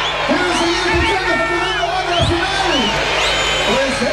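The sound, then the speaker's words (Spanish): A concert audience shouts and chants after a show ends: a continuous crowd roar with drawn-out voiced calls swelling over it. “A ver, escuchemos. ¿Qué está diciendo el público, Franco? ¿Otra?”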